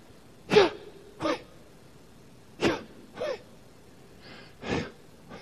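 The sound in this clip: Human breathing, a few short, airy breaths in and out at an uneven pace, each a brief hissing burst separated by quiet pauses.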